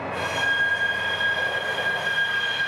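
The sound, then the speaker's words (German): A diesel locomotive starting to move, a continuous mechanical rumble under a sustained high squealing tone from the wheels. “Das ist ein Diesel-Lok. Jetzt wird sie gleich anfahren.”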